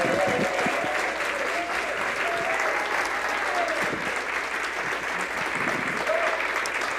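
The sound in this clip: Congregation applause welcoming a speaker to the pulpit: dense, steady clapping that holds at an even loudness throughout, with a few brief whistle-like cries rising above it.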